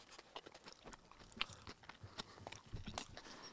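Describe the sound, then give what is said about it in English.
Someone bites into and chews fries topped with crunchy onions and pickled radish, producing many faint, irregular crunching clicks spread across the whole stretch. “That means I just bit into something delicious.”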